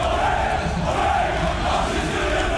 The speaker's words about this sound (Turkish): Üyeleri selamladığı sırada Aziz Yıldırım sloganları yükseldi.